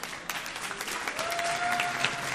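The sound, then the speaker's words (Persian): Short burst of audience applause at a gathering, given to thank a woman, a dense patter of clapping that swells slightly toward the end. “میخوام بیستن و یک دقیقه همه مردونه تشویقش بکنید”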